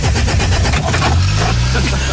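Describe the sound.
An old engine being hand-cranked and starting, loud rhythmic chugging pulses that settle into a steady, rough running rumble.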